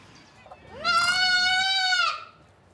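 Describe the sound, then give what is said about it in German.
A young goat kid gives a single drawn-out bleat, rising sharply at the onset and then holding a steady, buzzy tone for over a second before cutting off, loud against a quiet background. “Gleich noch das zweite Geißlein.”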